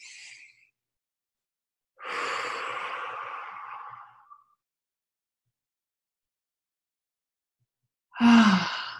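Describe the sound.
An audience takes deep breaths together: a long, airy inhale-exhale of a few seconds, then a short, heavier sighing breath after a quiet gap, with a faint breath at the very start.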